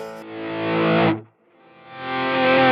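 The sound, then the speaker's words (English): An electric guitar with full 80s-style overdrive plays a heavily distorted, sustained chord that cuts off abruptly, then swells back in gradually, as if faded up with a volume pedal, into another loud, gritty sustained chord. “I want to have those sounds, those kind of 80s type of things where you've got the full overdrive going on”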